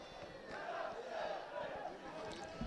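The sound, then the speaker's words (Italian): Parma football fans cheer in stoppage time at the Moccagatta stadium with their side leading 2-0 away, a faint, steady crowd roar that swells slightly throughout. “iniziano a gioire i tifosi del Parma”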